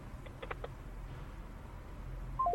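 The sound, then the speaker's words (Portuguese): Telephone line tone after a caller's call drops: near-silence with faint background noise, then three short, clear electronic beeps stepping down in pitch at the very end. “Opa, caiu a chamada deste ouvinte”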